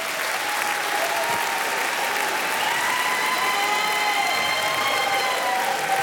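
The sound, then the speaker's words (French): Enthusiastic ovation from a live audience in a radio studio after a concert performance. Dense, steady clapping from many hands fills the whole clip at an even, loud level, with faint high whistle-like tones drifting above. “Une nouvelle ovation”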